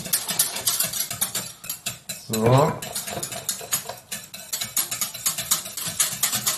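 Spoon stirring in a small milk pot as pudding powder goes into hot milk with the stove switched off; many quick, uneven scraping clinks run throughout, with a brief fuller swirl in the middle.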